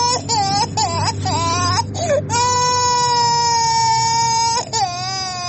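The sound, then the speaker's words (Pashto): Young children, two and three years old, crying while sick with an illness in Kandahar. Loud, high wails: a few short broken sobs, then one long sustained cry and a final brief wail. “دا ژړا بیا د هلمند په ګاونډ کې د کندهار د اوسیدونکي محمد الله د تنکیو ماشومانو ده چې په همدې ناروغۍ اخته سوي دي”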